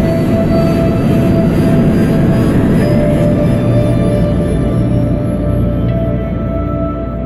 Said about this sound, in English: Liftoff of the Manu 1.